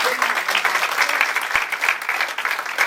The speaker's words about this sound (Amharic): አጨብጭቡለት።